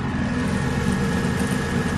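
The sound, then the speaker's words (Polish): A vibroseis truck, a road-going heavy vibrator model, works with its heavy plate pressing against the ground. It makes a loud, steady low rumble with engine drone and no separate impacts, holding an even level throughout. “samochód zaczyna właśnie teraz wibrować. Specjalna maszyna uderza o ziemię.”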